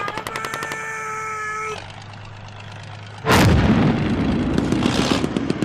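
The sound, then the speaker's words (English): Artillery shelling nearby: after a stretch of sustained tones, a single sudden, loud blast bursts out, followed by a lingering, rumbling roar. “that was close. The shelling has been relentless today.”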